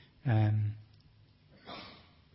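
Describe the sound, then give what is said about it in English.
Breathing close into a microphone: a loud, voiced exhale like a sigh, then a quieter, softer breath a second later. “I just realised all that noise was me breathing into the microphone.”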